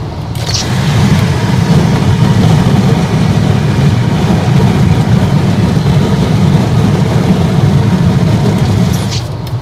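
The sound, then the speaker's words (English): Loud, constant roar of wind and road noise inside a car driving eastbound on I-80 with a window open. The low, broad rumble holds steady for nearly ten seconds with no talk. “that's what it sounds like when I open the window to the car.”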